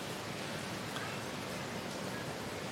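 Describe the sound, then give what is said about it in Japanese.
Heavy rain falls during a thunderstorm in Singapore, heard as a steady, even hiss that continues without a break or any distinct events. “雨すごいんですよ雨がすごくてさっきから雷と雨の音を聞きながらお話ししています”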